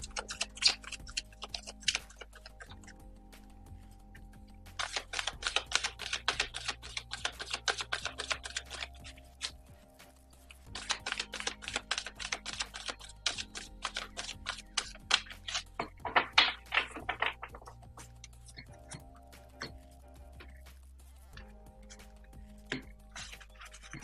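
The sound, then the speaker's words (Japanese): Playing cards shuffled before an oracle-style card reading, heard as repeated bursts of crisp, rapid riffling clicks separated by short pauses, with no talking. “カードをシャッフルします。少々お待ちください。”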